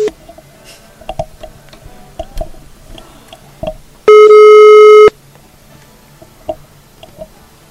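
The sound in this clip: An outgoing telephone call gives one loud, steady ring tone lasting about a second. Faint clicks and ticks come before and after it.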